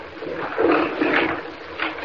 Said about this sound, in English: Kent, what's that? That grinding. Wait a moment, don't move. Professor, behind you. Back at the altar. Good heavens, what is it? In the light of the fire, look. Professor, a whole section of the ice is swinging to one side.